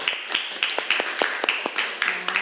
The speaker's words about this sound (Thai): โอเคค่ะปรบมือเพื่อนหน่อยค่ะ